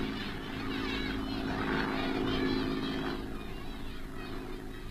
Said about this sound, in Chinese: 快来看日本飞机，你看三架。